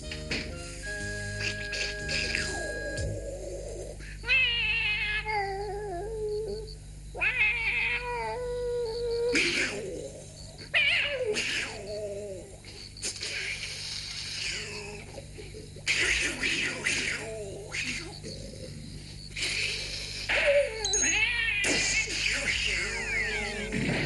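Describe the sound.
A cat meows repeatedly late at night, with many drawn-out, wavering meows and yowls spread across the span and short quieter gaps between them.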